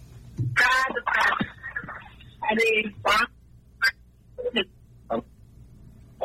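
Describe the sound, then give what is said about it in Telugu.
A radio plays behind a phone call, coming through as thin, telephone-band voices in short, broken bursts with pauses between them. “మీరు phone చేసి నాకు radio వినిపిస్తున్నారు, మళ్ళీ phone చేయండి.”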